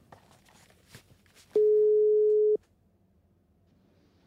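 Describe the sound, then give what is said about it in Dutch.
A single steady telephone tone sounds as a call is placed. It holds one flat pitch for about a second, surrounded by faint, quiet background sounds before and after. “Oké, we moeten even bellen.”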